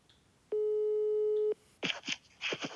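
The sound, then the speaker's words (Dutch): A single telephone tone of about one second, steady and mid-pitched, is heard when a number is dialled, followed by a few short, noisier bursts. “Ik toets ze nummer”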